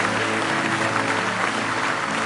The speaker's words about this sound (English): Give him one more hand clap of praise if you love him with all your heart.